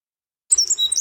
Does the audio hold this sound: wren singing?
yes